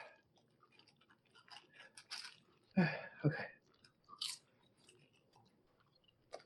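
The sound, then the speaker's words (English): Someone chews popcorn drizzled with chocolate and peanut butter and topped with ground Snickers bits, giving faint, crunchy bites, with a few louder crunches in the middle, alone and without talk. “So this popcorn, it's drizzled with chocolate and peanut butter, and then it has little bits of Snickers ground up on it too.”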